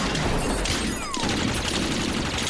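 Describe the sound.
A volley of gunfire fills a tense scene in an audio drama, a dense, continuous crackle of overlapping shots that holds steady at full strength for the whole stretch, with no voices heard.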